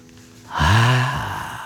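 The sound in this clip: A voice imitating a demon sniffing the wind: a single loud, drawn-out breathy intake with a voiced, groaning tone, held for about a second before easing off.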